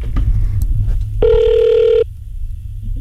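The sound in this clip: One ringing tone on a telephone line sounds after a call is dialed. It is a steady, even burst lasting under a second, heard over a low continuous hum.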